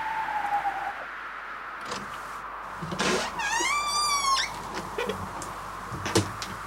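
A door creaking open as a drawn-out, wavering squeal that rises and falls over a steady rushing, wind-like noise, with a few soft knocks around it.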